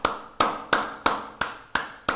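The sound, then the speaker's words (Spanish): Rhythmic hand clapping, seven sharp slaps at an even pace of roughly three per second, each dying away quickly, with no voices. “Y aplaudimos esas buenas noticias.”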